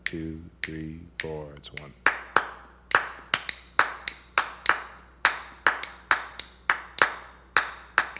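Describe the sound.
Hands clap a 2-3 clave rhythm after a voice counts in. Many sharp, crisp claps follow in a steady, syncopated pattern that repeats.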